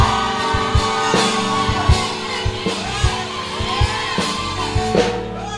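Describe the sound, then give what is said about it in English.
An audience cheers and applauds at a testimony gathering, a loud, continuous wash of crowd noise with whoops and shouts and repeated sharp accents running through the whole stretch. “Oh, I can feel your excitement. The louder your applause, the sooner your testimony is coming.”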